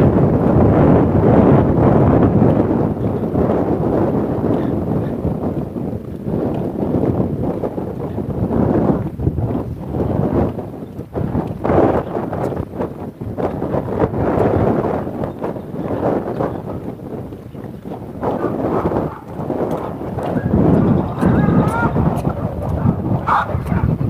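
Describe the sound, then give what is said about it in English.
Wind buffets the microphone as a gust comes around a corner outdoors, a loud, continuous, rough low rumble that rises and dips in strength throughout. “So now we have wind.”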